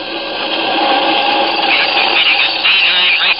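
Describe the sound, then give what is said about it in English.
Rocket cruiser motors throbbing at takeoff: a loud, steady, whirring mechanical roar that holds without a break, with no voices over it. “The ship begins to throb with the unleashed power of its rocket motors.”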